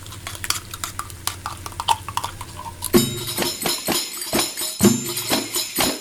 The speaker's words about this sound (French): Jusqu'à ce que la viande, c'est-à-dire, soit dorée. On met un peu de paprika doux. La courgette, on la coupe comme ça. Le concentré de tomate. Ça, essentiel pour la chorba.